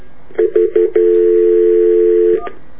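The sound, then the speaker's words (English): Telephone keypad dialing tones: three short, clean beeps in quick succession, then one long held tone lasting over a second, and a brief final blip, all loud and clear with no talking. “It's not easy reading and dialing, folks.”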